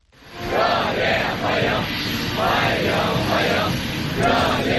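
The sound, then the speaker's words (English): A large group of young people in Beijing chants loudly to welcome Russian leader Vladimir Putin on his visit to China, a steady, rhythmic roar of massed voices rising in repeated waves throughout. “Young people dressed in blue shirts and white trousers chanting and waving to welcome the Russian leader for what Chinese media have said is his 25th visit to China.”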